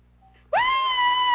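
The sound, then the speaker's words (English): A woman lets out a loud, high scream that starts abruptly after a brief near-silence, sweeping up at the onset and then holding a steady pitch to the end. “Yeah, she screams.”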